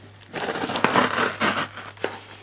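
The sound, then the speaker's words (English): Crinkling and crushing of a cardboard shipping box being opened, a run of rough, papery bursts of varying loudness with a few sharper crackles and no talking. “I'm gonna start out by undoing the shipment box, because I haven't actually undone that yet, so I'm gonna just take care of that real quick.”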